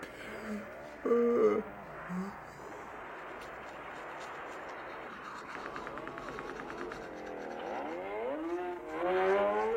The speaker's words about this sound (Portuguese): O que você está vendo? Um filme de motocicletas. Eu não sei bem o nome.